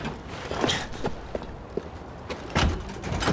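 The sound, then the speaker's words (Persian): Clicks and knocks of a balcony door being locked: a few faint, short, sharp handling sounds, then a louder rattling burst toward the end. “کی در بالکن رو قفل میکنه؟”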